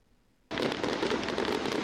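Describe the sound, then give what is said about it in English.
Fireworks explode in a dense, continuous burst of crackling and popping that starts abruptly after near-silence and stays loud and steady to the end. “For thousands of people, it is a single night of jaw-dropping explosions.”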